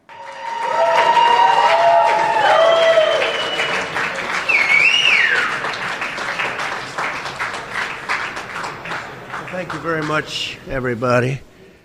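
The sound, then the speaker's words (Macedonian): Supporters applaud former US president Donald Trump's arrival at Trump Tower in Manhattan. Loud crowd clapping swells early, then thins into scattered claps, and a voice is heard near the end. “Подржувачите на поранешниот председател на Соединетите Американски држави Доналд Трамп со аплауз го поздравија неговото пристигнување на местото каде што започна се – кулата Трамп на Менхетен.”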